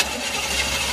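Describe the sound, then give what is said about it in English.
Car engine in trouble during a breakdown, giving a rough, steady roar with a rattling edge that lasts under a second, with no voices. “That sound is every driver's worst fear. How much will the repairs cost? Is it your engine, your transmission, or worse? A car breakdown could cost you thousands to repair”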